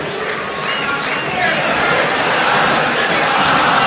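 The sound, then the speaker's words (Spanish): Racing fans singing together in a stadium during a football match, a dense and steady roar of many voices that swells slightly louder partway through. “La gente empezó a cantar. Escuchá, escuchá lo que canta la gente de Racing.”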